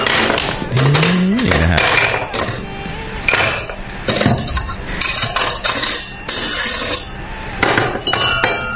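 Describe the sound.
Glass clinks and knocks with ice as a liquor drink with soda is mixed, giving many sharp, loud hits and rattles in an uneven rhythm throughout.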